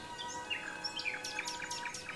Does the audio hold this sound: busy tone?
no